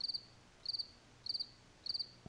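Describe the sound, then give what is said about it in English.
Crickets chirping, four evenly spaced bursts of rapid, high, thin pulses, each burst a quick trill of about four beats, faint and alone over a quiet background. “Doug Ford, all he hears is crickets from Health Canada”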